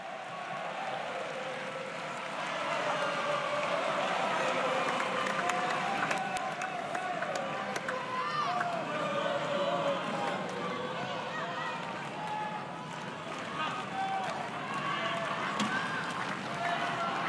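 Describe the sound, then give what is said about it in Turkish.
Italian spectators at a tennis match cheer on Cobolli against Zverev, a steady, loud crowd din of many voices that holds throughout without clear breaks or distinct bursts of applause. “İtalyanlar mümkün mertebe destek olmaya çalışıyor Kobolli'ye. Setin sonuna doğru seslerini daha da yükselttiler.”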